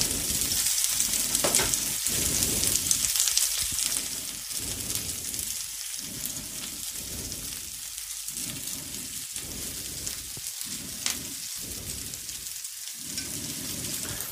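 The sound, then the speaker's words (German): Large onions roast in a pan with a continuous crackling sizzle at a fairly steady, moderate level, its low hiss dropping away briefly several times, with no talk. “Wenn wir die schön anrösten, werden die ja auch süß. Gerade wenn man diese großen Zwiebeln nimmt, die sind ja nicht ganz so scharf wie die kleineren.”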